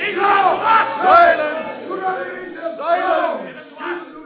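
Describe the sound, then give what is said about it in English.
A crowd shouts loudly during a dramatized trial scene, calling for a prisoner's release. The raised voices swell and fall in several waves and carry throughout. “One moment. I seem to hear some crying out to release Jesus.”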